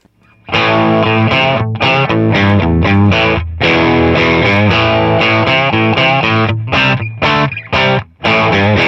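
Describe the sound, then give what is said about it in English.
A Stratocaster-style electric guitar plays through a pedal with its gain cranked, giving a tweety small-amp breakup distortion. Loud, gritty chords ring in phrases broken by several brief stops. “But also you can crank the gain and it does kind of a cool tweety small amp sort of breakup simulator. It sounds like this.”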